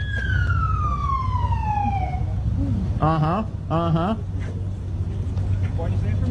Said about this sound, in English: It's just, this is the sound of an arrest. Whoop, whoop. That's the sound of the police.